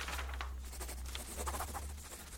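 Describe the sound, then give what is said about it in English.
A pen scratches steadily across paper while signing an autograph: a quiet, continuous dry scratching with small irregular strokes and no talk. “How about an autograph? All right, then.”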